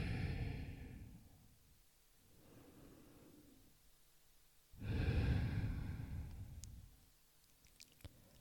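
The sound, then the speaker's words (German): Slow, deep breathing in and out during a relaxation exercise for falling asleep. Long airy breaths alternate with quiet pauses; the first and last breaths are loud and a softer one falls between them, with no talk. “Ein- und ausatmen, hm, ganz schwer werden.”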